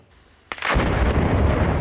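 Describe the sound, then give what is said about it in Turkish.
A house rigged with explosives by Israeli soldiers in Biddu, northwest of Jerusalem, blows up with a sudden sharp blast that swells into a sustained, heavy roaring rumble. “Patlayıcı yerleştirilen ev dakikalar içinde yerle bir oldu. Görüntüler Kudüs'ün kuzeybatısından. İsrail askerleri Bitlu beldesinde bir Filistinlinin evini havaya uçurdu.”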